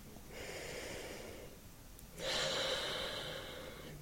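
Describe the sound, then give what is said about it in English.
A slow, deep breath taken during a guided relaxation session: a soft drawn-in breath, a short pause, then a longer and slightly louder airy exhale, with no talking. “And take a slow, deep breath.”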